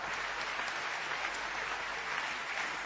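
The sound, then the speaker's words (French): A church audience applauds in a dense, even patter of clapping that runs steadily for a few seconds without a break, fairly faint. “Je voudrais que nous l'acclamions très fort.”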